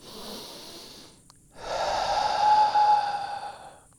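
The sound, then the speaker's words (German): A calming breathing exercise: one short breath in through the nose, a brief pause, then a long, steady, breathy exhale through the mouth that slowly fades. “Hol durch die Nase Luft und atme dann lange durch den Mund wieder aus.”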